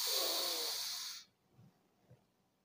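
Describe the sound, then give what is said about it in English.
A deep, loud inhale during a stretching exercise: a breathy rush of air lasts about a second and then cuts off, leaving near-silence and a couple of faint soft sounds. “Stretching out, inhale. Contract. Inhale.”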